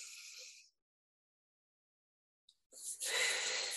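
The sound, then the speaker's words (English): A faint, long inhale over hands coated with peppermint oil diluted in coconut oil, following a brief soft hiss and a silent pause. “I'm going to dilute it with coconut oil. Just a couple of drops, rub together, breathe in,”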